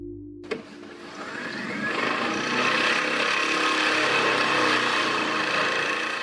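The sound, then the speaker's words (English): Sheet pile driving at a construction site beside a residential tower. After a brief click, a loud continuous mechanical roar and rattle builds up, then holds dense and grinding to the end. “That was just about 5 seconds of driving one sheet pile,”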